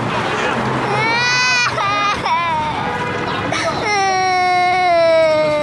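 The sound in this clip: A small child cries in loud, high, sustained wails, broken in the middle by short gasping sobs before a long final wail.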